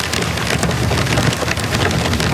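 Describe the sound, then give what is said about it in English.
Heavy rain pelts down across a metro area during a drought, a dense, loud, unbroken patter of countless drops striking surfaces, steady throughout with no voices. “that's the sound of the heavy rain that was pelting much of the metro area yesterday”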